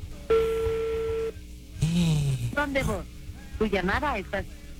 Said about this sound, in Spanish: Está sonando, que conteste.